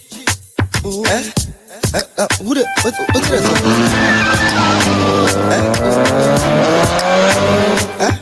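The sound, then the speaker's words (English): Engine revving and tires squealing as a car drives off in a comedy skit. The revving is loud and climbs steadily in pitch, with the squeal running through it. “I'm telling you, so but was that EC Emily driving off? She was on the run.”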